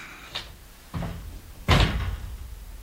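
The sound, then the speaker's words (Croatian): A window being opened on a stormy day gives three knocking, door-like thuds. The first is light and the last is the loudest, with brief rattling after it and no voices. “Da otvorim prozor. Otvori.”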